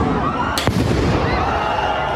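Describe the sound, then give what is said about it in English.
A firework goes off during a protest clash between two opposing camps, giving a single sharp bang over a loud, continuous roar of crowd noise. “Fireworks also flew. Watch out!”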